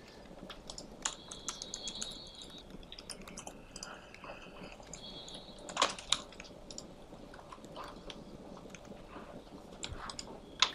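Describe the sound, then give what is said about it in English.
Typing on a computer keyboard: many quick, irregular keystrokes clatter steadily, with a few sharper, louder clicks standing out. No one speaks. “Okay, I'm just going to type this and then explain what I'm doing.”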